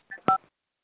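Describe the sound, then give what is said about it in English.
Two telephone keypad tones sound from pressing star and then six on a phone keypad. They are short, dual-pitched beeps in quick succession, the second louder than the first, heard alone without talk. “You can hit star six to unmute.”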